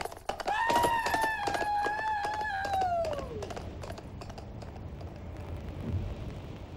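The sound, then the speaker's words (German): Storm at night: a steady rush of wind and rain noise runs throughout, with a high, whistling howl that holds, then glides downward and fades into the continuing rumble. “In solchen Nächten kommt er. Hör doch nur den Sturm.”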